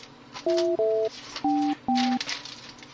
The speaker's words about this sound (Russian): набираю твое